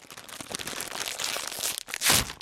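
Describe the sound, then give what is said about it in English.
Crunching of salt and vinegar potato chips, a dense run of crisp, crackly bites and crinkles that builds to a louder crunch near the end. “salt and vinegar potato chips. Bet you can't eat just one.”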